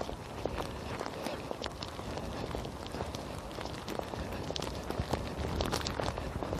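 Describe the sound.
Footsteps walk briskly through snow as a coat gathers blowing flakes, forming a dense, steady run of many short, gritty crunches with no pauses.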